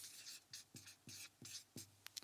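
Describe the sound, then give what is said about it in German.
A pen writes by hand on paper in several short, scratchy strokes with brief gaps between them, quiet and dry, ending in a couple of small ticks. “Schreibe ich Ihnen das jetzt noch hin hier.”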